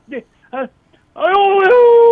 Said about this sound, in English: Did he just howl? I think he did howl. Either that or it was his, maybe it was his hound dog.